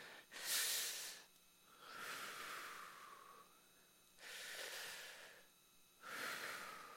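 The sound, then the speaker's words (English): Deep, slow breaths, heard as four long, airy rushes of air separated by short pauses, each swelling and then fading, with no talk over them. “take a couple deep breaths”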